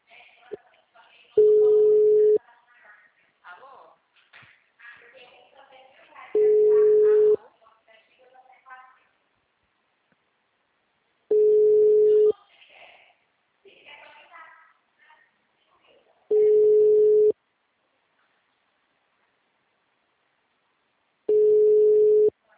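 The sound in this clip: A telephone ringing tone for a call, heard as five steady pulses of about one second each, evenly spaced roughly five seconds apart. Quiet talking fills the gaps between rings.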